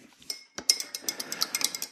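A spoon stirs gelatine in a bowl for a salmon terrine, making many quick, light clinks in an uneven rhythm.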